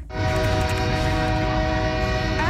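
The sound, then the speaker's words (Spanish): A train heading to Calexico sounds its horn in one loud, continuous blast over a low rumble. The blare holds steady for the whole clip. “El tren hacia Calexico.”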